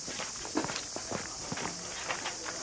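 Footsteps of someone going upstairs, a series of soft, fairly even thuds over a constant background hiss.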